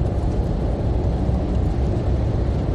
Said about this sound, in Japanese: 今上りなので、東京に向かっている車たちが多いんですけど、